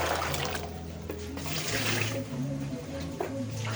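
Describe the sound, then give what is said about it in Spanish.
Continuous running and sloshing water as corozo palm fruits are washed in basins. A steady, even wash of liquid noise runs over a low hum throughout. “Ya le di los corozos y ella procedió pues a buscar un par de poncheras para lavar los corocitos”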